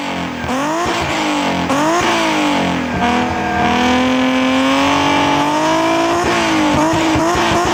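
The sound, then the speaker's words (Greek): Loud revving from an Alfa Romeo 156's naturally aspirated V6 engine, a sustained raspy roar that rises and falls in pitch through several throttle swings, ending in quicker blips. “Χαρακτηριστικός ο ήχος του. Έτσι. Αν ακούς αυτό τον V6 να βρικάτε, ξέρεις ότι μιλάς για Αλφα Ρωμαίο.”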